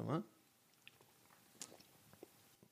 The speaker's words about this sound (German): ich muss einen Schluck, einen Schluck Monster Energy nehmen hier.